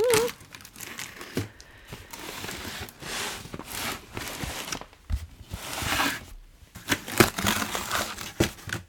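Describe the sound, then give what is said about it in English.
Packing tape is ripped off a taped cardboard box in rough, uneven bursts of tearing and crinkling, fairly faint, with irregular pauses between the pulls. “so let's open this box. Here we go. Let's tape.”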